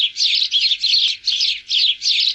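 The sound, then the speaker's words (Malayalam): House sparrow chirping: a bright, high, steady stream of chirps in repeated bursts separated by short dips, loud and with no other sound. “മനുഷ്യരെ ചുറ്റിപ്പറ്റി കഴിയുന്ന പക്ഷികളിലൊന്നാണ് അങ്ങാടിക്കുരുവി.”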